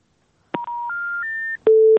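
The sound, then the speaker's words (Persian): Three rising electronic telephone tones sound in steady steps after a phone call is cut off, followed by a lower, louder sustained tone; brief clicks mark the starts and ends. “متاسفم که تماس اینا قطع شد”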